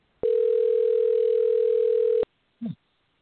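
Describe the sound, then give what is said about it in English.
A telephone sounds a single long, steady electronic tone of about two seconds, then goes silent before one short chirp. “I hear a telephone ringing.”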